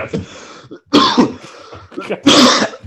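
A person coughs hard from an air bubble stuck in the throat, making a few loud, rough bursts of coughing and throat clearing in quick succession.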